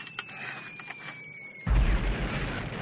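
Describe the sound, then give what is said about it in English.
A grenade launcher fires and explodes in a sudden loud, low boom about halfway through that rolls on as a dense rumble, preceded by a faint, thin high whine and quiet scattered noises. “Hey, give me a hand with this grenade launcher.”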